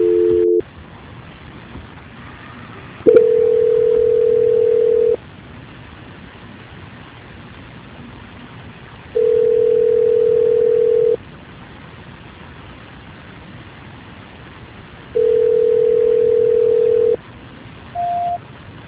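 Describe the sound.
A telephone line plays a tone during a call transfer: three long, steady, low beeps about two seconds each, separated by stretches of hiss, then a brief higher beep at the end.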